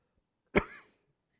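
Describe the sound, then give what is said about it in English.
A single short throat clearing from someone with something caught in the throat: one brief, faint rasp that fades quickly, heard alone. “I got something caught in my throat there.”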